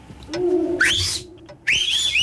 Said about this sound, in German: In dem Moment ertönen auf der Straße Pfiffe.